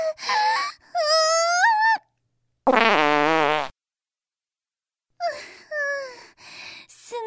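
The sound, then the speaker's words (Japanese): One drawn-out, tonal fart lasts about a second, loud and wavering, set between moaning vocal sounds before and after it. “あ、おなら出ちゃう。”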